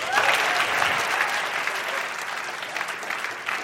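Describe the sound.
Applause from the audience welcomes a cognitive neuroscientist back to give her closing statement in a debate: a full, even wash of clapping lasting about four seconds.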